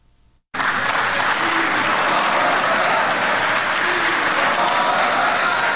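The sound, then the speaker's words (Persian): Applause fills a hall in a five-star hotel in Doha after a peace treaty signing: a crowd claps in a loud, dense, steady roar that starts abruptly after a brief quiet moment and holds throughout. “این صدای چکچک در هتل 5 ستاره اشراتون دوحه بعد از آن در فضای تالار بلند شد”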